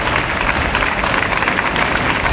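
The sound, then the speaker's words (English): A round of applause at a joint appearance of the Spanish prime minister and Gibraltar's Chief Minister, a dense, even patter of many hands filling the whole clip without a break. “And a round of applause from both sides.”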